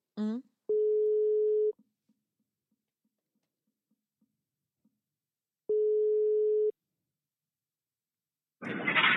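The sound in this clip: Telephone ringback tone heard while calling someone: two steady, low-pitched beeps about a second long and roughly five seconds apart, with a brief voice at the start and people talking at the end.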